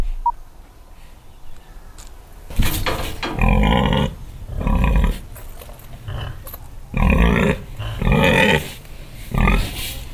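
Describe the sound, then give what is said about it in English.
Pigs on a farm grunting and snorting in a series of loud, low bursts separated by quieter pauses, rough and throaty, with no talk over them. “Hello, pig. Hello, piggies.”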